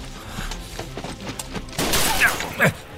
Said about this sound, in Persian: از سمت راست بود توفنگ شکاری بود